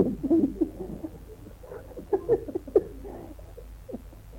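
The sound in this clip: A man's voice imitating a bird's call, with a few soft, low cooing hoots in irregular bursts, the first and middle ones a little louder.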